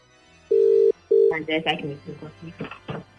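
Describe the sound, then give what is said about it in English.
A telephone ringing as a call is placed: two short, steady, low-pitched ring tones, the second one cut short, followed by voices talking. “let's get Aoife up on the phone and surprise the life out of her, because she's not expecting a phone call from Noni this morning”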